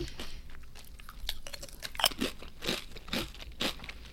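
Faint crisp crunching and chewing as someone bites into a doubled-over chip with pepperoncini flavor. Many short, irregular crunches follow one another without talk.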